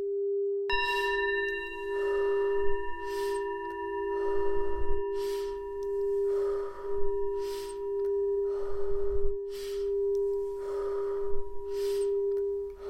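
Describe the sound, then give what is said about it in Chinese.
Slow guided breathing exercise for relaxation and meditation: many soft, airy inhales and exhales in a steady, even rhythm over a continuous pure tone that runs throughout. “现在我们恢复到一样的节奏，再一次做呼吸练习的巡回。”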